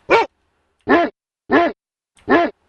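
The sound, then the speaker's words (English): Barking from aggressive dogs, several of them trying to bite someone: four loud, sharp barks spaced at fairly even intervals with silence between, no talk over them. “There's too many dogs in here. They're trying to bite me.”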